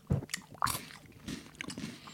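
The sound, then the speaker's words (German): Biting and chewing into a lychee: a few moist, crunchy bites followed by softer squishy chewing, with no talk over it. “Alles klar, dann probiere ich mal Litschi.”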